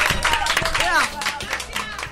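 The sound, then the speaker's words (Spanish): Clapping from a group at a school radio program, with scattered claps and taps mixed under excited shouting voices throughout. “¡Un aplauso! ¡Bravo! ¡Bravo!”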